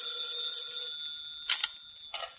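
A telephone rings with a bright, metallic bell tone. It holds steady at first, then breaks into a few short, sharp bursts. No voices accompany it.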